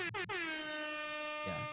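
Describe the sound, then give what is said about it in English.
Air horn blast: two very short toots followed by one long, steady, brassy blare that holds at full loudness to the end. “That's you always need the air horn. Yes, that's when's a good time for the air horn to be played?”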